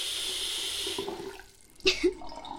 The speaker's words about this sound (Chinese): 装满水，把水开满。